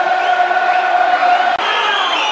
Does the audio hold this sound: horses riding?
no